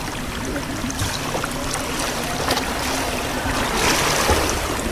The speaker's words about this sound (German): Und schon ist sie weg. In sicherem, regelmäßigem Bruststil schwimmt sie von mir weg, schlägt am anderen Ende des Beckens an und kommt sicher wieder zu mir zurück.